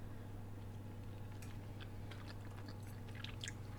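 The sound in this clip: Faint, moist chewing of baked sprats, a scattering of small soft clicks and squishes that come more often in the second half.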